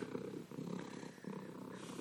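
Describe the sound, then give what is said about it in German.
A male cat purrs softly in a continuous low rumble that rises and dips in about three breathing cycles. “Dieser Kater, ey.”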